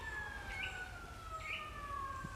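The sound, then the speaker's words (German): Police car sirens in a radio drama: a steady wailing tone that slowly falls in pitch, with brief higher chirps over a hissy background. “Polizeiautos”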